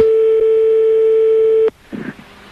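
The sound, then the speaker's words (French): A telephone line tone sounds while a call is being dialed. It is a loud, steady, single-pitched tone lasting about a second and a half, ending abruptly with a click and followed by faint line noise. “on va appeler ta tante, un petit kiki donc, rapidos”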